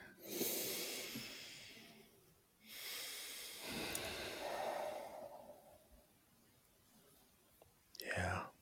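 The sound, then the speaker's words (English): A group takes a deep breath together: faint, airy breathing with two long hissing breaths and a short breathy burst near the end. “take a deep breath, everybody.”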